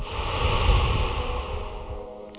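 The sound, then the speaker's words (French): A single long breath out during a guided relaxation exercise, a soft, low airy rush that swells in the first second and then slowly tapers away. “De nouveau soufflez.”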